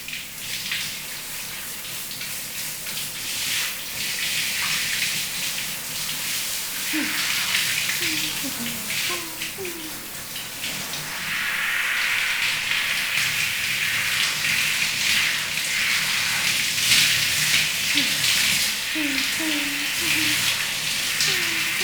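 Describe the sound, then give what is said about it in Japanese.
Water rinses shampoo out of someone's hair at bath time, a steady splashing gush that grows louder and fuller partway through, with a soft voice talking underneath. “それじゃあ流すよ。お、シャンプー目に入っちゃうといけないから軽く下向いててね。”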